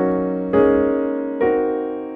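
Chords of G flat, A flat and B flat in traditional locked hands voicing sound in three rich, sustained strikes, each rising sharply and then slowly decaying into the next.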